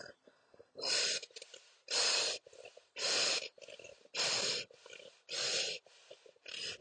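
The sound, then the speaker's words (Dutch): Deep breathing in and out: slow, rhythmic, airy breaths that alternate between loud, long strokes and softer ones in a steady cycle, with no talking. “Dus wat ben ik gaan doen? Ik ben gaan ademen.”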